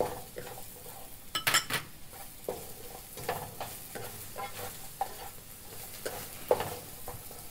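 Vegetables being stir-fried in a pan, a constant crackling sizzle under many scrapes and clinks of a metal utensil stirring against the pan at an irregular rhythm.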